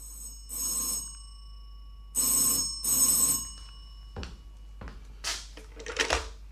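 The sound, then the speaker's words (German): An old-style telephone bell rings for an evening call in a few loud, shrill bursts separated by short pauses. Several clunks and rustling handling noises follow. “Da kriegte ich abends einen Anruf.”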